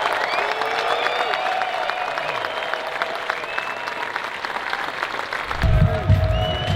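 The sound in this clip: An audience at the VeeCon conference applauds and cheers to welcome speakers: steady, dense clapping throughout, with voices rising over it and a louder swell near the end.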